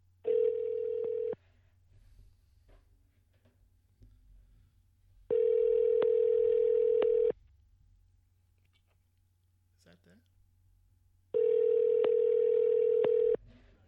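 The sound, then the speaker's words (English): Telephone ringing tone while calling someone: three steady buzzing tones, each about two seconds long, separated by longer pauses with faint clicks and a low hum in between. “Let's just call this person, see if they answer.”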